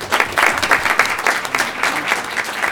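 A round of applause at a school board meeting honouring a student of the month: a modest audience claps in quick, distinct slaps that stay fairly even for under three seconds.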